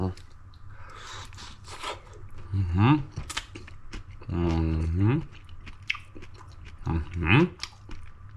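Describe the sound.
Hot food fresh from the oven is bitten and chewed, giving many small crackling, clicky mouth sounds. A few drawn-out murmured vocal sounds break in between them.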